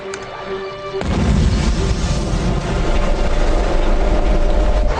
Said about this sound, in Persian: کشتی منفجر شد. یعنی چی که کشتی منفجر شد؟